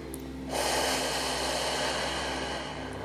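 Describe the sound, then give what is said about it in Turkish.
A big deep breath drawn in during a guided relaxation: one long, steady, airy rush lasting about two and a half seconds, loud and alone, easing slightly at the end. “Ve kocaman büyük bir nefesle gözlerimizi kapatıyoruz.”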